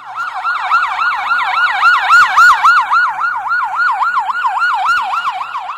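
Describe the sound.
An ambulance siren called to a road accident wails loudly and steadily, its pitch swinging rapidly up and down in an even cycle, with no voices.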